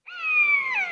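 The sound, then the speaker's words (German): A common buzzard gives a single cat-like mewing call, a clear, high whistled note that sags slightly in pitch over about a second. “Dieses Miau-artige ist der Mäusebussard. Da, das war er.”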